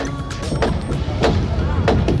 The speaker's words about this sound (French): symbolisée par la chute du mur de Berlin, mur érigé en 61 par le bloc soviétique, et que vous entendez ici tomber sous les joyeux coups de masse de ce 9 novembre 1989.